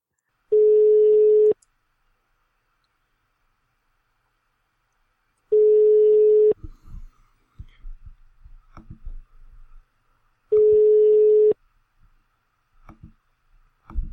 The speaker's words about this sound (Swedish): jag ska prova hans Skype-nummer också